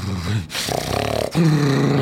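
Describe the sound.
A human voice imitates a mostly pit bull dog growling behind a gate, making a low, rough, throaty rumble with a pulsing stretch in the middle.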